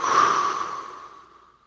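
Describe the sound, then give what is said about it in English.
A slow, long exhale of breath, loud and breathy at first, then gradually thinning and fading away over about a second and a half. “exhale, slow your heart rate down, and exhales tilt that seesaw that is the autonomic nervous system more toward the parasympathetic side.”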